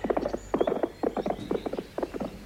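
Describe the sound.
Hooves of two horses being ridden, clip-clopping in quick clustered groups of hollow knocks that repeat steadily throughout, moderately loud with no voices.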